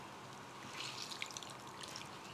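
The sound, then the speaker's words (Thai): Water dribbles from blanched spinach as it is squeezed out after a cold-water soak, a faint, steady trickle broken by a few small drips. “แล้วก็เอาลงน้ำเย็นนิดนึงค่ะลวกก็ไม่ต้องนานแช่น้ำเย็นก็ไม่ต้องนานพอไม่ร้อนแล้วเนี่ยคุณผู้ชมก็ยกได้เลยค่ะแล้วก็บีบเอาน้ำออก”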